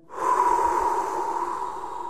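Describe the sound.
A deep breath is drawn in as a loud, steady, airy rush lasting about two seconds, heard alone.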